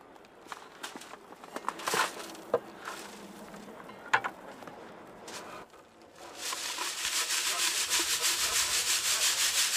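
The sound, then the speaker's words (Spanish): Dirt being sifted by hand through a fine mesh screen at a screening station on a dig for missing Vietnam War soldiers. Faint, scattered scrapes and scuffs give way to a louder, steady, rhythmic rasping shake. “La suciedad se elimina cuidadosamente y se llevan a una estación de cribado, donde se clasifica a mano a través de una malla fina.”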